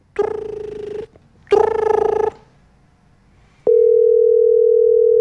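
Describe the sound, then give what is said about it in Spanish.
Ringback tones play while a phone call is being placed: two buzzing tones with a short gap between them, then a quiet pause, then a steady continuous tone that holds to the end. “Te estoy marcando.”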